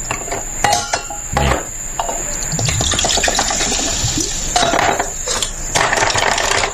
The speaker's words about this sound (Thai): มานี่มา1แก้วมาดื่มเพื่อลืมฉงชิ่ง